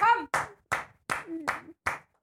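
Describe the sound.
People clap their hands in applause for a joke. Six sharp claps come at a slow, even beat, with voices talking at the start and between some claps.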